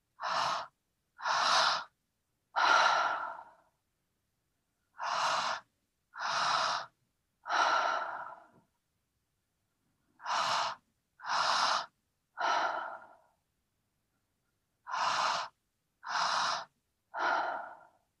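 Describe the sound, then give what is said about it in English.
Deep, slow breathing in a guided breathing exercise for energy and focus: two inhales, into the belly and then the chest, followed by a longer exhale. The pattern repeats four times with clear pauses between rounds, and no one talks. “we're going to breathe into our belly and then into our chest and then exhale. So we're going to breathe in for longer than we breathe out.”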